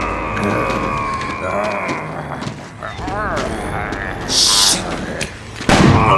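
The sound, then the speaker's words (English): A single loud gunshot rings out near the end, fired at zombies lurching from behind a bar, with a man narrating over the moments before. “The first shot hit one of the creatures square in the chest, missing the head completely.”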